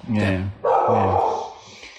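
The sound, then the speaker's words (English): A miniature dog barks twice, each bark loud, deep and harsh, the second one longer and trailing off into a rough fade. “That's Sky. One of our three, my little miniature dog pack here.”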